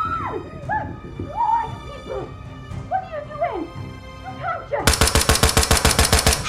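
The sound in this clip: Gunshots ring out in a loud, rapid burst of many automatic-fire cracks. They follow a stretch of high, wavering whimpering cries.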